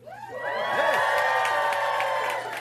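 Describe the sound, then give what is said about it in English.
A group of children shout and whoop together in the background, their high, overlapping voices forming a sustained burst of excited noise that swells and then tapers off briefly. “And there's a bunch of kids in the background.”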